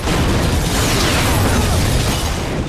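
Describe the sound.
A scooter explodes right beside a car on a street, a loud, dense, roaring blast that stays at full strength throughout without fading.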